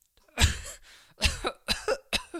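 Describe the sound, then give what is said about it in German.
A person coughs several times in a loose series of harsh bursts, the first one strongest and the later ones coming in quicker clusters, with short quiet gaps between them. “Sag mal, hast du Husten?”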